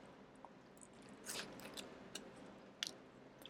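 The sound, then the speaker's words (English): Someone bites into a fast-food sandwich with mayo and bacon: a few crisp, faint crunches spaced apart, with soft chewing between them and no talking. “Okay, now let's take a bite. Let's take a bite.”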